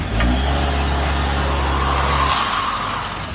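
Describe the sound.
Car engine revving hard in reverse in a car park, front wheels spinning while the back wheels stay stuck; a loud, steady low engine drone holds for about two seconds, then breaks into rougher, fading noise.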